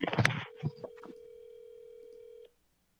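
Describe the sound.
Ringback tone of an outgoing telephone call: one steady, even tone held for about two seconds and then cut off, after a brief burst of handling noise at the start.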